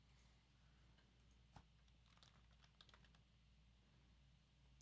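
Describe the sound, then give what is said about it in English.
Rapid typing on a computer keyboard, a fast irregular patter of soft key clicks, faint over a low steady hum. “I just searched in. I was like, how do you even type that fast?”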